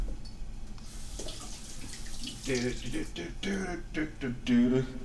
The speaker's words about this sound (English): Wait, we gotta dump the old tea out of the tea filter. Man, probably should rinse it out.